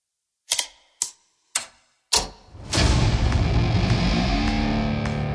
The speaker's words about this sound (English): This is the grossest roulette wheel I've ever heard.